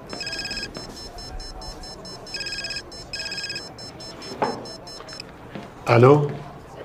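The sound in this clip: A telephone rings in a dramatic scene, giving a pulsing electronic trill in several bursts separated by pauses, then a short, loud voice near the end.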